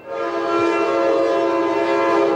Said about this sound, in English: while the train whistles by.